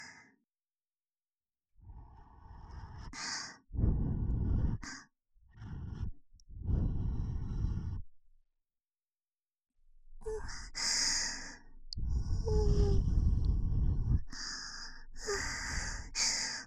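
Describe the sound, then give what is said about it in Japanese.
Gentle breathy puffs of air blown into the ear during ear-cleaning role-play, a series of soft, hissing breaths separated by short silences, growing longer and steadier toward the end. “それじゃあフーフーしますね。くすぐったかったらごめんなさい。じゃあ行きます。”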